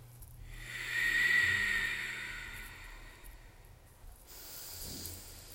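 Long, hissing Ujjayi breaths in a yoga practice: one slow breath swells and fades, then after a short quiet gap a second, softer breath follows.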